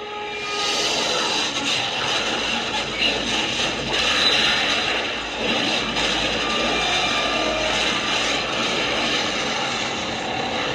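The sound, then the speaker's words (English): An airplane crashing sound effect plays as a loud, continuous engine roar that stays steady and dense for its whole length, with no distinct impact. “That was the sound of an airplane crashing sound effect.”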